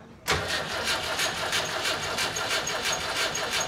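A carburetor engine, primed through the carburetor, starting: after a moment of quiet it catches abruptly and settles into a loud, steady running roar with a regular pulsing throb.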